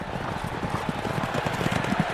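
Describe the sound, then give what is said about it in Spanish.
A horse galloping in a race, hooves striking in a quick, steady rhythm throughout over a dense, constant background noise. “Alexis tomó inmediatamente la delantera, pero de pronto, su caballo tropezó, rodó y Alexis cayó sobre la pista.”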